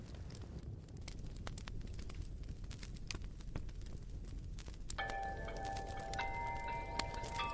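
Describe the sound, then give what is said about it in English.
A creepy theme tune played from a record: steady vinyl crackle and scattered pops run throughout, and sustained eerie tones enter partway through and continue over the surface noise. “Whoa, that's kind of creepy, man. That's the theme from the No Sleep podcast. Take the needle off, man.”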